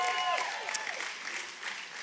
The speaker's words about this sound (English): Will you guys give it up for them?